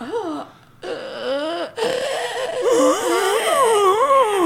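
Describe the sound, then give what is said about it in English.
A voice imitates a zombie groaning and wheezing, with wavering, drawn-out moans. A short dip in the middle is followed by a longer, louder groan that rises and falls unevenly in pitch, with breathy rasp throughout. “Is that a zombie? Yeah, that's the zombie noise.”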